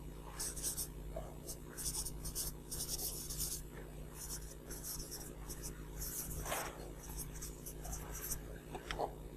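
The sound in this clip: A pen scratches on paper in repeated short strokes, faint and soft over a steady low hum, with quiet voices now and then.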